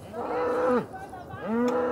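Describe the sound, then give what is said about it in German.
Naturally hornless cattle moo during a cattle drive: two long, deep moos, the first trailing off downward, the second rising in after a brief pause. “Bulle Bernie und die anderen Rinder sind von Natur aus hornlos.”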